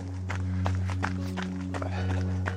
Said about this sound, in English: running on the Mountain of Joy, just coming up to the Hiker's Bridge